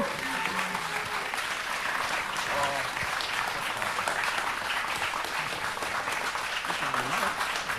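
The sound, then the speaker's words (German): An audience in a cinema gives sustained applause, a dense wash of clapping that stays even and unbroken from start to finish at a moderate level. “Irgendwann auch einen Applaus.”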